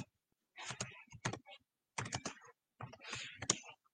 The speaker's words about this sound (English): Okay, so let me, while I type this in and make sure that I have it spelled right.